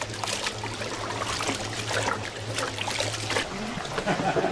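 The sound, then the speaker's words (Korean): Water pours over freshly steamed glutinous rice in a basket to loosen the clumped grains: a steady, splashy trickle runs throughout, with a faint low hum underneath. “다시 한번 물을 가득 부어 뭉친 찹쌀을 풀어줍니다.”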